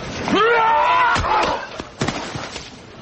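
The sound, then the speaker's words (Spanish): A man struck on the head in a Western crime drama: a strained vocal cry, then a couple of heavy thuds and scattered knocks, loud throughout. “Dan golpea a Turner en la cabeza.”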